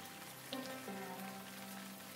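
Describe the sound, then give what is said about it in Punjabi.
Rain falls on a car parked at the India Gate parking area while someone waits inside: a steady, soft, even hiss with faint tonal hum underneath and no clear voices. “ਗੱਡੀ ਵਿੱਚ ਬੈਠ ਕੇ ਮੈਂ ਇੰਤਜ਼ਾਰ ਕਰ ਰਹੀ ਹਾਂ ਕਦੋਂ ਇਹ ਮੀਂਹ ਖਤਮ ਹੋਵੇ”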